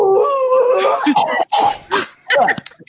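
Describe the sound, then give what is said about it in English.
A player's voice imitates a raging beast's howl during a tabletop fantasy role-playing game, a loud, rough, wavering cry broken into a few ragged bursts that trail off into short rasps. “So letting out the now accustomed howl that everyone seems to like for some reason, the old eyes will go red. So it'll go, oh!”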